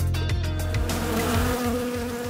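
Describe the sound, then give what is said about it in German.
Ground wasps buzz at an underground nest beneath the lawn at the back of a swimming pool in Bamberg. The buzzing is dense and continuous, a loud low drone with wavering pitch from many insects and no talk. “Das Erdwespennest befindet sich im hinteren Bereich eines Bamberger Schwimmbades”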